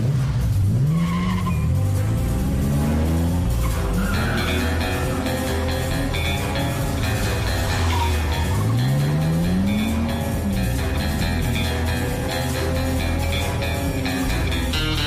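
James Bond cars accelerate loudly, engines revving in rising and falling sweeps while tires squeal and skid. The roar is continuous and heavy, with no talk.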